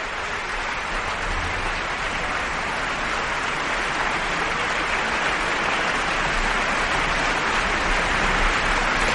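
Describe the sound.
Concert audience applauding at Salle Pleyel after Ravel's orchestration of Mussorgsky's Pictures at an Exhibition, played by the Orchestre Philharmonique de Radio France: dense, loud, steady applause that continues unbroken throughout.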